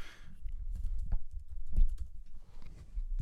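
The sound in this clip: Rapid typing of an email on a computer keyboard: many irregular keystrokes clatter in a dense, uneven stream, with a few louder taps standing out.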